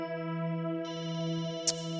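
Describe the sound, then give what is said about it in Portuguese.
Telephone ringing on an outgoing call: a continuous, buzzy electronic tone with rich harmonics holding steady throughout, broken only by a brief click near the end. “Atende aí, irmão, atende aí.”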